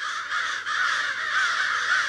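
Crows cawing while mobbing a raptor: a loud, continuous chorus of harsh, overlapping caws, with no voices.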